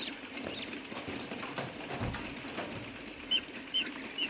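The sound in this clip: Newly hatched goslings sitting under a lamp give a few faint, short, high peeps near the end over a low, steady hiss.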